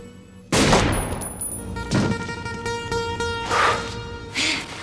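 Gunfire in a movie scene: a sharp, loud shot breaks out, followed by a few further blasts over a sustained ringing tonal background.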